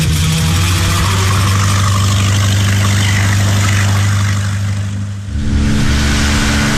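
A boat engine runs as a loud, steady, low drone with a humming tone throughout, briefly dipping and shifting in character near the end, with no voices over it.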